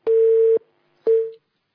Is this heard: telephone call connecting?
yes